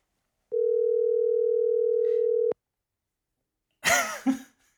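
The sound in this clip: Ringback tone on an outgoing phone call, a single steady electronic tone lasting about two seconds that cuts off cleanly, followed after a short silence by a brief cough.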